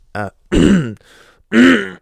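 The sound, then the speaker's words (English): A person clears their throat in a quick run of loud, rough, voiced grunting bursts, with a softer rasp between them and a long, strained final push. “Just had to clear my throat.”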